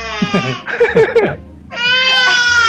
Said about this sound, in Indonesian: anakku nangis nih